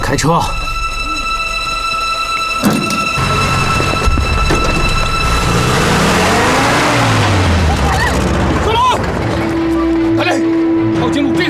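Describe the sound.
A car engine revving as the vehicle drives off. The loud motor drone swells and shifts in pitch over a dense, steady background.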